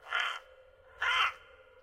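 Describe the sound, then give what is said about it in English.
Two harsh caws from a crow calling at night in a forest, about a second apart, faint and alone with no voices. “And that's when you hear the crow call”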